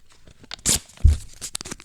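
Paper envelope torn open during a game of picking numbered envelopes, heard as a few short, dry ripping bursts with brief crinkling between them.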